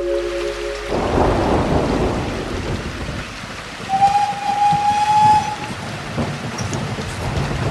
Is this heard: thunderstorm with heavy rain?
yes